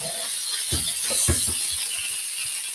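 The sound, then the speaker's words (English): Hot oil sputtering in a pan as burgers cook, a steady bright sizzle with scattered sharp pops and crackles, alone with no voices. “Try to get them. Hopefully the oil will stop sputtering a little.”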